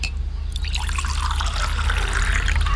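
Water pouring into a cup as a drink is served to a guest: a steady, continuous trickling splash that holds at an even level for the whole clip, with no talk.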